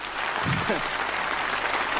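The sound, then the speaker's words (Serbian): Audience applause at a live music performance of romance songs: steady, even clapping that fills the whole stretch, with a brief voice heard early on. “Jedan aplauz.”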